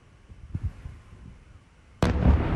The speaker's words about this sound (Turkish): Sirenler çaldı, patlamalar peş peşe geldi.